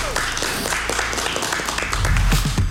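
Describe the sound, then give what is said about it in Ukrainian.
Studio audience applause on a radio music show, a dense, steady patter of clapping that holds at an even level throughout. “Друзі, ще раз оплески.”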